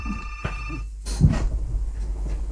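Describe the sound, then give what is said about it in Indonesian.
A telephone rings for an incoming caller on a call-in line. A steady ringing tone fills the first second, and rough, noisy bursts follow. “Maaf dulu, ini ada penelpon yang mau bergabung.”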